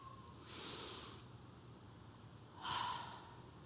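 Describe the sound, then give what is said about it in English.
A deep breath drawn by a group following a guided cue: a soft, breathy inhale followed after a pause by a slightly louder exhale, both faint and heard alone. “Will you all take a deep breath with me?”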